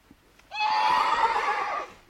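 A mare neighs once: a loud, bright whinny held for over a second, shrill and wavering, alone with no talk.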